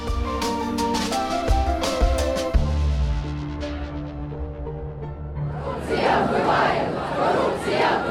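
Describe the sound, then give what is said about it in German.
Street protest crowd in Kyiv demonstrating against President Zelensky during wartime. Loud music with heavy beats plays first, then fades, and a roaring mass of shouting voices swells in and continues to the end. “So klang das in dieser Woche unter anderem auf den Straßen von Kiew. Demonstrationen und Proteste gegen den ukrainischen Präsidenten Zelensky und das mitten im Krieg.”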